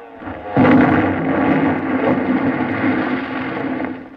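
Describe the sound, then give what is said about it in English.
A bomb-explosion sound effect from a 1948 radio comedy bursts in suddenly as a loud blast, then swells into a sustained, rumbling roar that slowly subsides. “Menjou had thrown his bomb with deadly aim. It exploded right in the middle of the formation and it dispersed the onslaught.”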